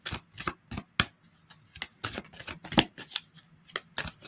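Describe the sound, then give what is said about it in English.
Oracle card deck being handled as a card is pulled: many crisp papery snaps and flicks in an irregular run, fairly quiet, with short pauses between bursts. “so let's pull a card for reignite your passion.”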